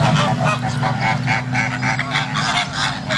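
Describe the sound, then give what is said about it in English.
A flock of flamingos calls with many overlapping nasal, goose-like honks, loud and continuous, pulsing in a fast irregular rhythm for the whole clip. “No, that's flamingos.”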